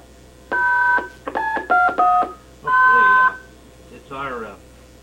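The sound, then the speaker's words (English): Telephone dialing tones as a participant is dialed off a conference call network: a few loud two-tone beeps of varying length with short gaps, followed by a shorter warbling tone. “At this time, I will dial Ms. Kramer off the network.”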